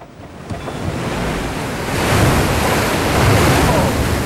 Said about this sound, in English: Waves come crashing in through the pylons.